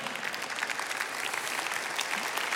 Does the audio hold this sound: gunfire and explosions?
no